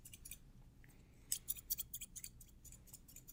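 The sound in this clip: Scissors snip hair at a barbershop in an ASMR haircut roleplay, giving a quick run of crisp, faint clicks that cluster in the second half after a quieter start.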